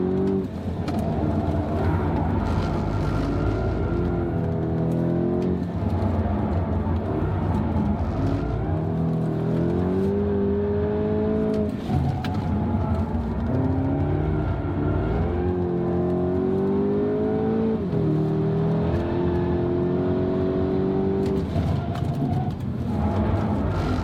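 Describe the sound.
A car is driven at an easy pace, its engine giving a steady, loud hum throughout. The pitch climbs in several stepped rises as it accelerates through the gears.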